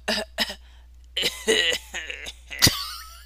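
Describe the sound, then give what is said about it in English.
Coughing from a person claiming to be sick, mixed with throaty voiced sounds in short bursts and ending in one sharp, harsh cough, over a steady low hum. “Sure, I'll cough as soon as I come in.”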